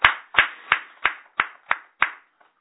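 Hand clapping at a celebration of a couple's 30th wedding anniversary: seven evenly spaced, crisp claps in a steady rhythm, followed by a faint trailing tap.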